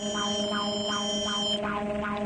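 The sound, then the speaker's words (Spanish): Mexico's seismic alert siren sounds during the second national earthquake drill of 2026. A loud electronic wail holds sustained tones under quickly repeating whoops that rise and fall, with no talk over it. “En este momento está sonando la alerta sísmica con motivo de la realización de este segundo simulacro nacional 2026 organizado por el gobierno de México”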